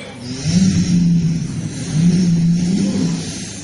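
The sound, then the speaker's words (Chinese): A small sedan's engine as it arrives at an airport and stops, heard as two moderate swells of mid-pitched engine hum with no talking. “来一路小轿车，这轿车来了这个机场之后，往这一停”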